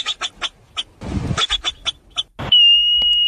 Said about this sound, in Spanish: Es una marmota.